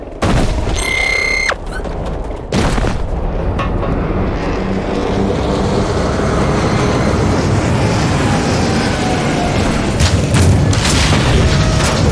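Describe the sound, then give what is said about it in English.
Heavy booming crash and grinding mechanical clatter as a big tank is dropped down in a video game cutscene in a mining area, a loud sustained rumble punctuated by sharp impacts near the start and toward the end. “And a big tank gets dropped down.”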